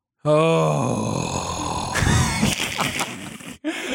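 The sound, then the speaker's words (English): A person lets out a loud, drawn-out groan, voiced and sagging slightly in pitch, which breaks into rougher, noisier vocal sounds before trailing off. “That is a groan.”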